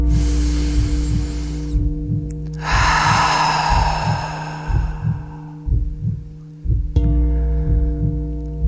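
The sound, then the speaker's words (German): A slow, deep breath in and then out, heard as two long airy rushes separated by a short pause, over a steady, softly pulsing low drone. “Und dann atme nochmal tief ein und aus.”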